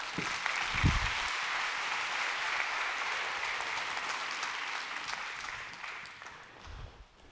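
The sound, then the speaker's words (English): An audience at a church recovery-ministry gathering applauds to welcome a guest to the stage: steady, dense clapping that slowly thins and fades toward the end. “Would you give him a hand?”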